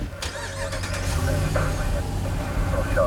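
Inside a car riding with the Napa Valley fire chief, a steady low engine rumble and road hum carry on without a break at a moderate level.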